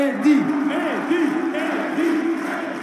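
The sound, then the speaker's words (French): Crowd ovation for cycling great Eddy Merckx on the Grand Place in Brussels during the Tour de France team presentation: a loud, sustained roar of many voices, with cheering and chanting that swell in waves. “il y a eu ce moment d'émotion lorsque le roi Eddy Merckx, qui a remporté le premier de ses 5 Tours de France il y a 50 ans, en 1969, a été ovationné par le public réuni sur la grande place de Bruxelles.”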